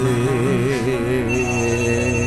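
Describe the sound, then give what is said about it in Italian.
A telephone rings at the close of a pop song, its warbling electronic ring tone loud and continuous over the last of the music. “Che bello lo squillo del telefono in chiusura di questa canzone”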